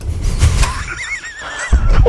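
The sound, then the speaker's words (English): A person's vocal goat impression: a wavering, quavering bleat with a shaky, trembling pitch that rises and falls, delivered alone between stretches of low noise. “And then I was trying to do my goat impression.”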